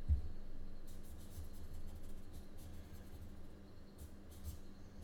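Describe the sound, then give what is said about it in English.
A pencil sketches and doodles on paper, giving faint, steady scratching with a few brief bursts of quicker strokes over a low, quiet background. “I'm just still sketching this forest, by the way. It's not an artist sketch, it's doodling.”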